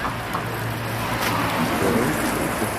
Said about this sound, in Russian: Поливает водичкой. Понял? Okay. Да, такой баллон с водой. Вот он на коляске едет.